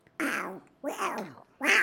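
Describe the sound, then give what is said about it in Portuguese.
A person's voice imitates a cat meowing: three loud, drawn-out nasal meows, each around half a second, the middle one sliding downward in pitch. “O Pato Donald faz assim, ó, imita um gato.”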